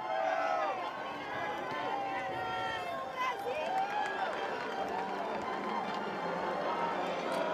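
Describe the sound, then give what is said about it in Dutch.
Jubilant crowd of pilgrims cheering in a sunlit St. Peter's Square in Rome: a continuous, fairly faint wash of many voices, with scattered shouts rising above the steady hubbub. “Een zonovergoten Sint-Pietersplein, moet ik zeggen, met een, zoals u kan horen, uitzinnige menigte van pelgrims die naar Rome gekomen zijn om de Heilige Vader te horen en te zien.”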